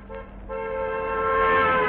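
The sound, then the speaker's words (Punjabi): A car horn honking among parked vehicles at a truck union gathering: a brief tone, then a loud, steady blare held to the end. “ਓਏ ਹਾਰਨ ਕਿਹੜਾ ਵਜਾਈ ਜਾਂਦਾ ਯਾਰ ਬਾਈ ਜੀ ਐਂ ਨਾ ਕਰੋ ਆ ਗੱਡੀਆਂ ਦੇ ਹਾਰਨ ਨਾ ਵਜਾਓ”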